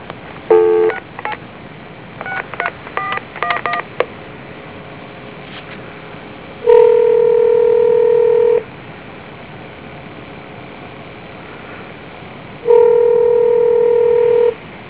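Touch-tone keypad dialing a telephone number: a rapid run of short electronic beeps, followed by two long, steady ringing tones separated by a pause, with no voices.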